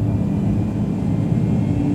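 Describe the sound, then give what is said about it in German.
Steady, loud engine drone of an airplane accelerating down a short runway for takeoff, a dense low rumble that holds even throughout. “Das Flugzeug beschleunigte”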